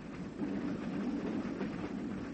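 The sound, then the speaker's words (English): A passenger train travelling on rails out of Cusco, Peru, bound for Lake Titicaca: a continuous, even rumble of wheels and carriages with broad, steady noise and no voices. “We are leaving Cusco, the sacred city, by train, the first we've taken in South America.”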